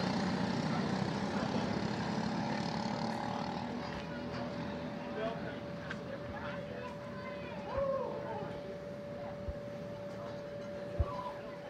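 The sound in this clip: LO206 Masters class racing karts run on the track, their engines making a continuous buzzing drone with a steady pitch throughout, broken by a few brief sharp clicks.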